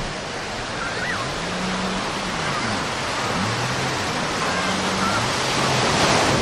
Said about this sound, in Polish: to ja to zrobię i wejdę na plażę, podejdę bliżej, tak żeby Państwo usłyszeli szum Bałtyku.